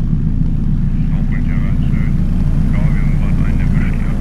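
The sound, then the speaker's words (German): A helicopter comes in gusty wind to land on the helideck of a polar research ship. Its rotor and engine make a constant low droning rumble throughout, and a voice talks over it. “Eine Böe hat den Helikopter gepackt, doch er setzt sicher auf dem Helideck auf.”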